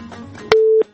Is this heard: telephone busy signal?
yes